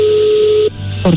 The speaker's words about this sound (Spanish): Ya colgó. A ver, márcale por último, a ver qué pasa.